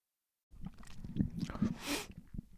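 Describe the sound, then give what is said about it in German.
A sip of tea: after a brief silence, quiet wet mouth and lip sounds come in soft irregular bursts, with a short airy slurp in the middle, all faint and close. “So, einen Schluck Tee getrunken.”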